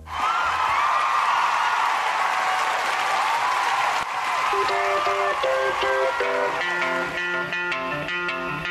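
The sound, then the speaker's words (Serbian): Loud, steady applause from an audience after a performer is introduced, sustained throughout, with music beginning to play beneath the clapping in the second half. “molim jedan aplauz za nju”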